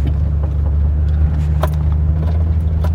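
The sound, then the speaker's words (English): A car engine rumbles steadily as a vehicle pulls into a driveway, a loud, constant low hum with a few faint clicks on top and no talk. “Someone is pulling in our driveway.”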